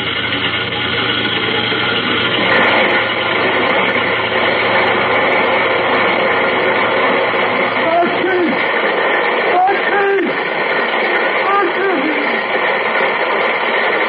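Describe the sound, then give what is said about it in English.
Coal truck with its body cranked up to dump coal down a chute, heard as a long, steady rumbling and grinding wash of noise, with men talking over the later part. “All right, now we'll put the coal chute in place. There. That's got it. Now to crank up the body and let old man Gravity do his stuff.”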